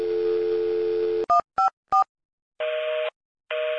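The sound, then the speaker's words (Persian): Telephone dial tone while calling an emergency number: a steady tone, then three short dialed key tones, then a pulsing busy signal in two even bursts showing the line is engaged. “صدای تلفن اورژانسو گرفتن داری؟ مهران حالش خوب نیست. آره دارم،”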